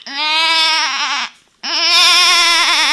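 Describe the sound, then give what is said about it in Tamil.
Goat bleating twice, two long, quavering nasal calls with a short gap between them, loud and alone. “அங்க பாரு, ஆடு சத்தம்.”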